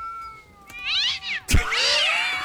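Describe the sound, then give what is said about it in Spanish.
Cats fighting, played from a sound effect button: loud, wavering yowls and caterwauls rise and fall in pitch. A sharp hiss or spit breaks in midway, followed by a long, strained screech. “De gatos peleando.”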